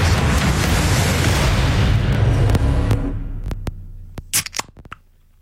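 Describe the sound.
A can of soft drink fizzes with a loud, bright hiss that holds steady for about three seconds. The hiss then dies away into scattered, faint crackles and pops.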